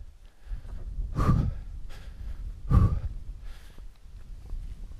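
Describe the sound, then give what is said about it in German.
Heavy breathing from a person who has just climbed a steep path in a forest at night. Two loud, rough breaths stand out over softer, continuous panting. “Oh, ich schnaufe, weil es gerade echt steil war.”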